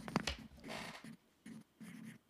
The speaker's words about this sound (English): That's the sound of a pencil.